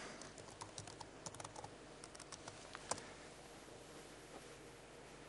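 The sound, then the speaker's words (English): Computer keyboard typing during a software demo while a database migration is entered: many faint, irregular keystroke clicks in a quick patter with a few sharper taps, and no talking. “Now, if I want to show that this actually is going to change how the database is going to be generated, I can just add a migration. If I could type, that would be good.”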